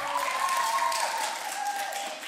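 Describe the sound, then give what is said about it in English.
An audience applauds a participant, with steady clapping and some cheering voices over it for a couple of seconds. “Round of applause for it, Daisy.”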